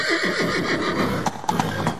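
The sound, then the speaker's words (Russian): A white argamak horse neighs in a loud, wavering whinny whose pitch quivers up and down before trailing off. “и бросился белый аргамак на помощь хозяину.”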